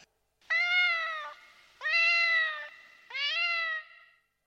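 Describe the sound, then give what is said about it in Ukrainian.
A cat meows three times, each call long, clear and tonal. The meows come in an even rhythm with short silent gaps between them, and nothing else is heard. “котик.”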